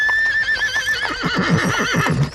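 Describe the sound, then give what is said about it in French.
Horses neigh in loud, wavering whinnies, joined by a rapid, rhythmic thudding of galloping hooves that builds into a rumbling cavalry charge on a theatre stage. “Un nuage de poussière annonce que les cavaliers approchent, puis un tonnerre de cavalcade envahit le théâtre.”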